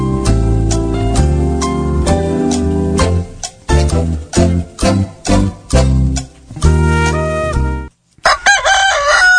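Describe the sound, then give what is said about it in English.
A rooster crows once near the end with a loud, harmonic call that rises and then wavers. Before it comes a longer stretch of rhythmic music with a steady beat. “There's that rooster again. Can't get rid of that guy.”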